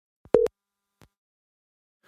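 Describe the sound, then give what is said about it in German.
A telephone busy tone after a dropped mobile call: one short, steady, pure beep, followed by faint clicks in near silence. “Jetzt ist die Verbindung unterbrochen. Ich werde nochmal anrufen.”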